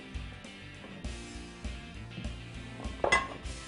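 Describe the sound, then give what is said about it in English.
A plate is grabbed and set down in a kitchen while a skirt steak dish is assembled, with soft handling sounds and a brief ceramic clink near the end. “So, let's grab a plate and let's put this together.”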